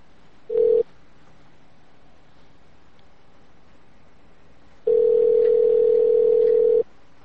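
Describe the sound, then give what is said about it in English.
Telephone tones as a call is placed to a restaurant: a brief steady electronic tone, a silent pause of several seconds, then a longer steady tone of the same pitch lasting about two seconds. “we're calling the Hungry Bear.”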